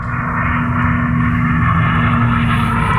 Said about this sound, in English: Well, that's the sound of it. The car reached 406 miles per hour at the Bonneville Salt Flats in the American state of Utah